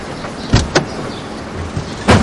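People get into a car and shut its doors, giving a few sharp thuds over a steady background rumble.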